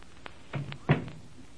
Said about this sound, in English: Now let me close this door.